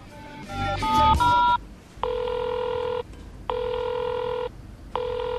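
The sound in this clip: Telephone dialing tones come first, followed by an answering machine's ringback: three steady, evenly spaced ring bursts, the last one cut short, clear and moderately loud with no talk.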